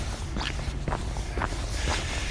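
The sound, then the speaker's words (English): Footsteps from someone out on an early Sunday morning walk: a few steady, evenly spaced steps, about four, crunch softly over a constant low background rumble. “I'm trying something different now. I'm going to go for a walk early.”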